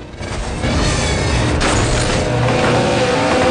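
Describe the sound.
Racing cars speed side by side with a loud, dense, steady engine roar that holds without a break throughout.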